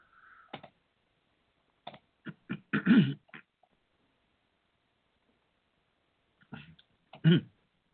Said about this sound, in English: excuse me a minute. I'm going to clear my voice here.